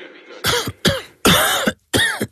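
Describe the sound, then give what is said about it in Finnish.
Four loud, dry coughs in quick succession from an irritated throat. The third is the longest and harshest, and the spacing between them is uneven. “älä suotta köhi.”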